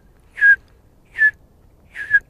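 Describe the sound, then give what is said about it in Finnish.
A person whistles to imitate a bullfinch's simple call in a forest: three short, clear whistled notes spaced evenly apart, with the last one split into two quick pulses, against near silence. “No punatulkkua voisi esiintyä tämmöisessä metsässä esimerkiksi. Että Sillähän on semmoinen hyvin yksinkertainen vihellys, semmoinen.”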